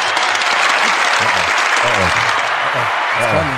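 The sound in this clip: Audience applause and cheering rise for a guest being introduced. The clapping is loud and steady throughout, with voices audible beneath it.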